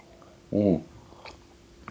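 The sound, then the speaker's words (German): A single big gulp of coffee: one short, throaty swallow that stands out against a quiet background. “Ich trinke eben noch einen großen Schluck Kaffee.”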